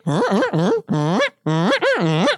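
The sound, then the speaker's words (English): A duck call is blown hard to imitate a calling flock of ducks while hunting. It gives a rapid, loud series of nasal, raspy quacks in short bursts, with brief gaps between them. “I start calling. When they're that far out, I'm hitting them pretty hard. I mean, I'm trying to sound like I'm a flock.”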